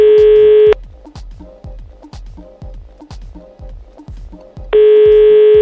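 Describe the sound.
Telephone call being placed: a steady dial tone gives way to a quick run of many short clicks or key tones, and then the dial tone returns, loud and with no voices.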